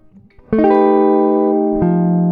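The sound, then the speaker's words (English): Guitar sounds an F dominant 7 sharp 11 chord, its notes entering in a quick roll and then ringing out loudly. Near the end a lower note is struck again beneath the sustaining chord. “It's the dominant 7 sharp 11 chord. In this case, right, because it's the fourth mode, it's going to be F. So it's going to sound like this.”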